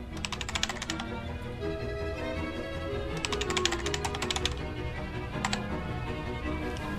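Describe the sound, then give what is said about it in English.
Typing on a computer keyboard in three short flurries of quick, light key clicks, with pauses between them, over a steady background sound. “then types, "London Aquarium," and then "Hotel."”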